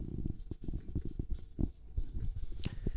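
Handwriting: a pen scratches out a word in many short, quick strokes and taps, a busy irregular scribbling rhythm with no talk over it.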